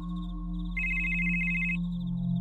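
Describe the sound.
A telephone rings once, a bright electronic trill lasting about a second over a steady low hum, with no voices.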